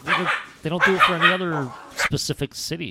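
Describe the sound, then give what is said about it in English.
A dog attacking his own tail lets out growls, quick yips and short barks with a little whimpering, while a person keeps talking over the scuffle. “That sound you heard, by the way, was my dog attacking his own tail.”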